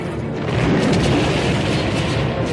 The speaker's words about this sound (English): An Imperial laser blast seals the passageway leading to the transports in safety.